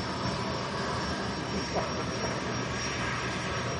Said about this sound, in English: Oh, good, the APU's firing up.